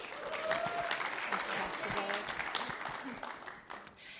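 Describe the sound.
Applause from a church audience welcoming a speaker, a steady, fairly loud patter of many hands that thins out and fades toward the end.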